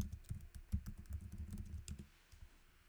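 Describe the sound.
Rapid typing on a computer keyboard, many quick, faint key clicks in an uneven rhythm, with no voices.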